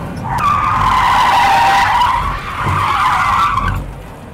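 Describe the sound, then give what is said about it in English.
A car on a stunt driving course skids through a 360 spin at about 60 mph using the e-brake. Loud, sustained tyre squeal comes in two long screeching stretches with a brief dip between them. “Here we are on a stunt driving course practicing. This is how to do a 360. You want to get up to about 60 miles an hour, but you got to be kind of violent with the e-brake and the steering.”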